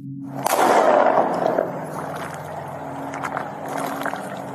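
A single gunshot, the last of several fired at a man, bursts out sharply and loudly, then trails off in a long decaying rumble over a steady low hum.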